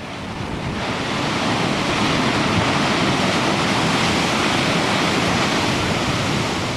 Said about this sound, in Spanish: Podrás disfrutar de la tranquilidad de la bahía y de la agresividad de las olas chocando contra los acantilados.